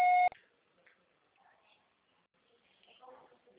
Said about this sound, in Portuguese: Sua chamada está sendo encaminhada para a Caixa Postal e estará sujeita à cobrança após o sinal.